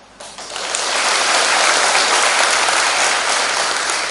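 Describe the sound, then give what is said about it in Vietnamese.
Applause from a group of young people at a temple summer retreat: dense, continuous clapping that builds quickly after a brief ragged start, then holds loud and steady to the end. “Khi các em nghe sư nói, các em vỗ tay cũng là thể hiện lời cảm ơn, thể hiện lòng biết ơn.”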